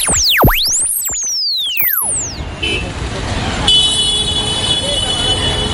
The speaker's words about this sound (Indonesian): Aduh, parah banget nih macetnya. Bro, naik trotoar aja biar lebih cepat.